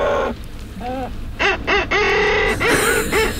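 Calls of a fairly large black seabird, an auk, come as many short, harsh, harmonic cries in quick repeated bursts, loud over a steady background hiss.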